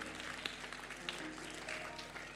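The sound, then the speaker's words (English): Faint, thin audience clapping, uneven and scattered with a few sharper claps standing out from a low murmur. “You're clapping. Your clapping is not very, very good.”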